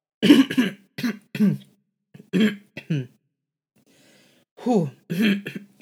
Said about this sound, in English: Man, my throat. Why can't I clear it up?